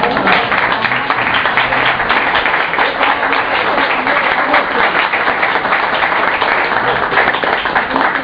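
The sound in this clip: A crowd at a gathering gives a round of applause, a thick, continuous clatter of many hands lasting several seconds at an even, loud level, with voices mingling in the background.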